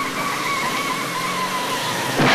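A car reverses while dragging a wrecked car with it, giving a sustained high-pitched squeal over engine drone that swells into a louder rush at the very end.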